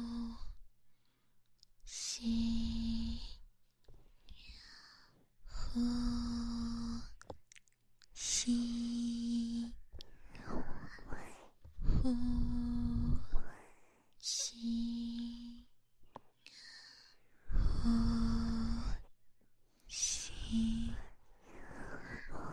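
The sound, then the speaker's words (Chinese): Slow, deep breathing in and out as a relaxation exercise: several unhurried cycles of audible inhales and long, breathy exhales, some carrying a faint hum of voice, quiet and evenly paced with short silences between breaths. “吸，呼吸，呼。”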